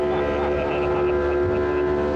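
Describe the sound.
A steady engine drone comes from a small, tiny passenger motorboat speeding across water on a trip to an island. The hum is continuous and harmonic, and its loudness stays even throughout.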